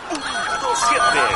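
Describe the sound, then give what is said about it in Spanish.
Telephone line tone on a fax line, a thin steady electronic tone heard under loud talking. “Revisemos nuestro fax, si habrán llegado fax. Dame tono”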